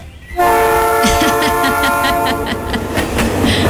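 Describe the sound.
A train horn sounds a loud, steady, sustained chord for over three seconds, over a rhythmic clatter of the train rolling on the rails.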